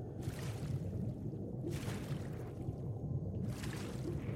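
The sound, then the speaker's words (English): Muffled underwater ambience in a video game: a low watery rumble with three soft swishing surges recurring at an even pace. “As you can hear, I'm still underwater.”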